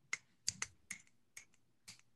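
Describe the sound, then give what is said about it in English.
Finger snaps from one dominant hand: six sharp, crisp snaps at uneven intervals, two of them in quick succession, with quiet between each and no talk. “So I want you, with your dominant hand, snap 5 times.”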